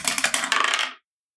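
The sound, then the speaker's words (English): Dice rolled for a tabletop roleplaying game clatter across a surface in a dense, rattling burst of many sharp clicks that lasts about a second and then stops abruptly, with no talk. “my Elsa dice that I got with my Dire D20, because I haven't used these yet, because I keep forgetting they're over there. All right, Elsa. First roll. Here we go.”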